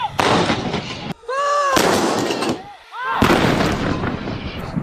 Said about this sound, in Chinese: 接到指令后，榴炮分队迅速完成瞄准装定，灵活运用单发射、急促射、齐射等多种射击模式，对敌方目标实施多波次精准火力覆盖。